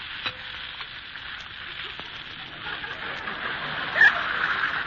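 Two eggs frying sunny side up in a pan: a steady, bright sizzle and hiss that runs throughout, with a small sharp pop near the end.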